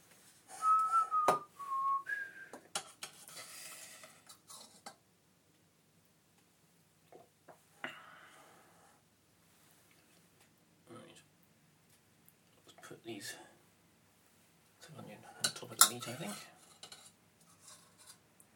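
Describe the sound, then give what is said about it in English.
Metal cutlery clinking and rattling in bursts as someone rummages for a spoon, with quiet pauses between the clatters and some whistling mixed in. “Oh, this is annoying. I can't find a spoon. Let's see. I'll just get a soup spoon or something. Or just any spoon, to be honest. Any spoon will do.”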